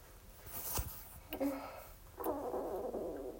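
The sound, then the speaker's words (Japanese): Gurgling rumbles from a stomach during digestion: two low, bubbly stretches, the second longer and fuller, set against faint background noise. “この中ゴロゴロいってる。消化してんのかな。”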